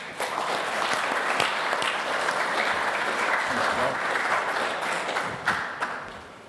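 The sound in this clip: Warm applause from a church audience at a Sunday morning Refugee Week service, welcoming a guest speaker. Dense, steady clapping holds at an even level for several seconds, then thins and fades toward the end.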